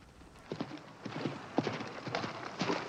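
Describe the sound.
A horse's hooves clip-clop faintly as a rider sets off, with many irregular hoof strikes over a steady background hiss.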